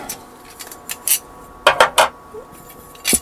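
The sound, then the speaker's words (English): Photographic developing trays being set out: a series of light, hollow clacks and clatters at irregular intervals, with a tight burst of three in the middle. “So I'm just going to get my developing trays all ready.”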